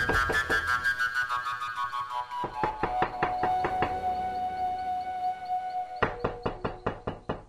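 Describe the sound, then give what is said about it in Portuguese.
Knocking on a door: many even, rapid knocks repeat steadily throughout, with sustained tones underneath. “Poucos minutos depois, restabelecida a calma lá fora, bateram na porta.”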